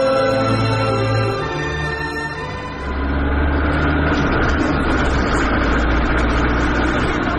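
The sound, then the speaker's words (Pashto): A car engine being driven fast, a loud, sustained roar that swells up after a brief dip in level and holds steady to the end. “دا موټر ولې دونه تیز چلوي”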